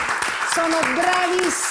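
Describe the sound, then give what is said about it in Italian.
Studio audience applause in a television studio after a mandolin and guitar duo performs, steady crowded clapping with a voice speaking over it. “ancora un applauso grande”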